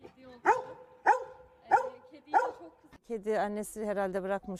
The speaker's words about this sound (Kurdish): بە شێوازێکی سیر پارێزگاری لێ دەکات و بەسەر هەر کەسێکدا دەوەڕێت کە بیەوێت لە بێچووە پشیلەکە نزیک ببێتەوە